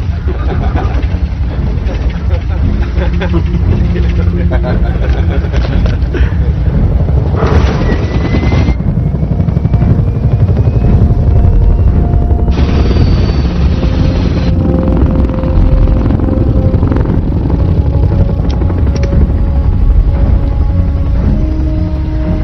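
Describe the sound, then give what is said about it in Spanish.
A helicopter crash in a military film scene, a loud, dense roar with heavy low rumble and intermittent booming bursts, sustained for the whole stretch. “Accidente de helicóptero.”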